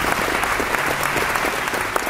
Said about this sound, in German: Das Premierenpublikum hat mit wohlwollendem Applaus und Schmunzler auf das Stück reagiert.